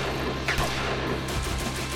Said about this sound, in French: Tirez, les gars, tirez.